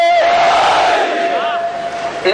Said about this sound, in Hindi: इन तमाम बातों के मुकाबले में दोस्त नारे हैदरी लगाना चाह रहे हैं, हैदरी हैदरी